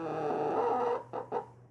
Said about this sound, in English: Oh, Sequoia, you're doing just fine, aren't you? You're being such a good chicken.